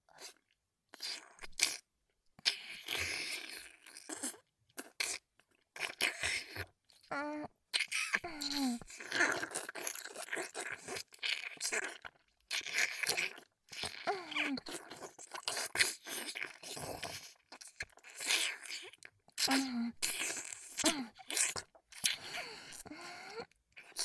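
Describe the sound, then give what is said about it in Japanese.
Crunchy chewing and biting repeat in many irregular bursts throughout, with occasional soft voiced sounds between the crunches. “このままお姉さんのお口で、あいただきます。”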